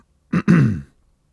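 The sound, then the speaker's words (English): A person clears their throat in two rough, guttural bursts: a short first push, a brief gap, then a longer rasping one that fades out, followed by quiet. “while I have a drink and clear my throat”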